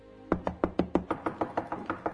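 Knuckles knock on a wooden apartment door in a residential building: twelve evenly spaced, hollow raps in a quick, steady rhythm, growing slightly softer toward the end, with no voices.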